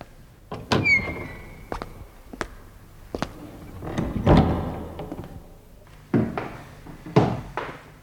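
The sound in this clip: A black door beside a shoe shop opening, with a series of heavy wooden thuds and knocks and a brief squeak near the start, spread unevenly over several seconds.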